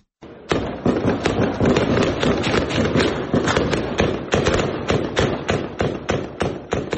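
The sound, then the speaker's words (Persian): Gunfire and explosions in a city, in District 8 of Kabul, around the Sayed Noor Mohammad Shah Mina area. Many sharp cracks and thuds come in a loud, dense, continuous barrage that lasts throughout with no pauses. “این صدای تیراندازی در منطقه سید نور محمد شاه مینه ناحیه هشت شهر کابل است که پس از هدای نماز عصر دیروز شاهد شلیک گلوله و انفجار بود”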